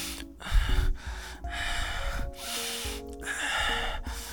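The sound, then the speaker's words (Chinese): Heavy, rapid breathing demonstrated as a way to express arousal during sex instead of moaning, with several loud gasping, snorting breaths in quick succession. “就是你，你用呼吸去表达你 out of control 的那个地方，而不用用叫的”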